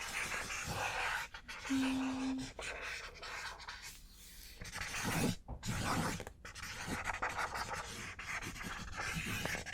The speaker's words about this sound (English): Okay, let me just write down the reason for the appointment, okay? Okay, just one moment.